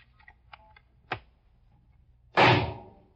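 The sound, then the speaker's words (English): A single loud shotgun blast fired from eight feet in a demonstration, a sharp burst that rings out and decays over a fraction of a second. It follows a few faint clicks and a brief thump. “Mr. Beasy, you may continue with this experiment. Thank you, Mr. Prosecutor. I will now fire the shotgun from a distance of 8 feet.”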